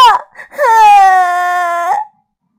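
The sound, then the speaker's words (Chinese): A flower fairy crying in a children's story: a short sob followed by one sustained, wavering wail about one and a half seconds long, loud and alone. “水精灵再次朝污泥怪追了过去，又发现花朵精灵也在哭。污泥怪把花都给踩倒了。”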